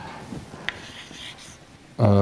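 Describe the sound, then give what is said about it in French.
Scratchy, soft rubbing strokes of an equation being written on a board during a physics lecture, with one sharper tap partway through, before a man's voice begins talking at the end. “Enfin, je vais quand même l'écrire.”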